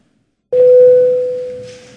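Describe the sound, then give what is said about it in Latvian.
Electronic bell tone calling members of a parliament to a vote: a single sudden, clean mid-pitched tone that starts loud and slowly fades over more than a second, sounding alone. “Paldies, lūdzu zvanu.”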